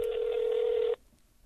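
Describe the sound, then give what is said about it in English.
Telephone tone while calling a toll-free number: a single steady, mid-pitched beep holds for about a second, then cuts off abruptly into quiet line hiss. “Canada has a phone number that you can call. Let's call it.”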